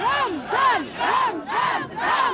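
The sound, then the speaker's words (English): Crowd at a rally in Grozny, Chechnya, chanting a loud rhythmic phrase about five times in quick succession, each call swelling and falling in pitch. “as shown in this rally in support of him and Putin last week in Grozny, the Chechen capital. Tens of thousands of people turned out for the event”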